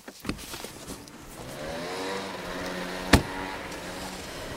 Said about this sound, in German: Herr Mager parkt das Auto um und wir verfolgen ihn wieder mal.